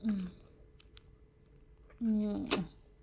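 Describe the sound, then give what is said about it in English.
Juice licked off fingers, with soft wet mouth sounds, a sharp smacking slurp near the end, and brief murmuring voice sounds around them. “Licking juice off of my fingers.”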